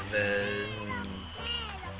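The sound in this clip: A black cat meows twice, each call a short, tonal, wavering cry with a brief pause between them, fairly faint against a soft background.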